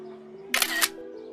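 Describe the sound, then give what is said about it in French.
A camera shutter fires once as teenagers take a photo, a short crisp burst of mechanical clicking that stands out over faint background music tones. “Venez, on met de la musique. Ouais, ouais, vas-y. On fait une photo ?”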